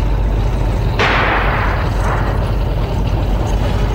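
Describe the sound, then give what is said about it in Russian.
A single sharp shot from an anti-tank rifle fired at a tank in wartime combat: a sudden loud burst of hissing noise that fades over about a second, set against a constant heavy rumble. “Горит один! Это наши стреляли из ПТР от Смирнова!”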